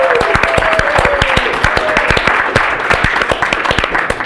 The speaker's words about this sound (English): Please put your hands together and welcome Geechy Guy.